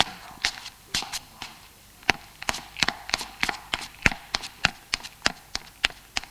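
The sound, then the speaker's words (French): A girl's footsteps descending a staircase: many sharp, fairly quiet taps in an uneven walking rhythm over a soft background hiss. “Elle sort de la chambre. Descend les escaliers.”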